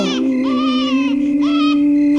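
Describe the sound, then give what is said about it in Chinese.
A baby crying in a few drawn-out, high wailing bursts, loud and tremulous, over a steady low hum. No talking. “不哭了啊， 真乖。”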